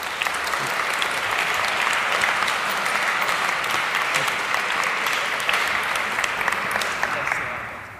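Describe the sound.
Audience applause welcomes guests at an evening event: a dense, even wash of clapping that holds steady for about seven seconds before tapering off at the end.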